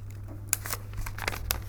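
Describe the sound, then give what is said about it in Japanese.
A sheet being folded along its middle line and pressed into a crease: faint crinkling rustles with a few sharp, light clicks against a quiet steady hum. “この真ん中の線に折るの。ここ、こう折り目つけて、ここを合わせるの、ここ。”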